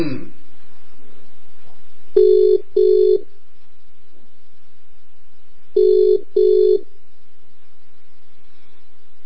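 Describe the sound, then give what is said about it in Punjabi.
A telephone rings out for a call to a listener: two double-ring bursts, each a pair of short buzzing pulses, separated by a pause, over a steady low hum. “Ring ਕਰ ਦਿੱਤੀ ਹੈ ਜੀ ਉਹਨਾਂ ਨੂੰ”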